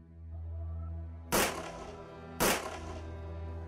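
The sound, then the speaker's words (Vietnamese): Two sudden, sharp gunshot bangs about a second apart cut through a steady low droning hum, each crack loud and quickly fading. “Bỗng nhiên có tiếng súng nổ đột ngột vang lên.”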